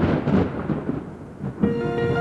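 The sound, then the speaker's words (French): A voice imitates a thunderstorm with a rough, rumbling hiss of noise that swells and surges for about two seconds, turning into a steadier, brighter sound toward the end. “Mais de l'orage. Bah, je fais le triple orage.”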